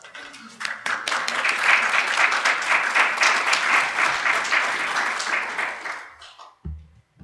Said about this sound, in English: Let's welcome our guest speakers with a round of applause.